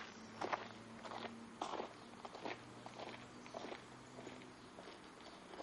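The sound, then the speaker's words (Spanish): Footsteps of three people leaving a cemetery through a rickety gate and walking along a stone path: a steady run of soft, irregular steps, faint over a low background hum. “los tres salen por la desvencijada cancela del cementerio y avanzan por el sendero de piedras abandonando el lugar juntos.”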